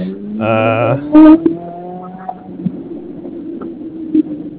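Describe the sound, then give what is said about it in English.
A Ferrari shop car's loud, aggressive exhaust gives a brief rising rev and a sharp, loud burst, then settles into a lower, rougher rumble. “sounds like a pretty crazy exhaust. Ferrari.”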